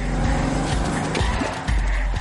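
A car crashes into another car and drives away: a loud, continuous roar of engine and road noise with tire skidding and squeal running through the whole burst.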